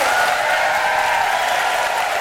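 Audience applause at a live show's basket contest: dense, steady clapping from a crowd, loud and unbroken from start to finish, with no voices over it.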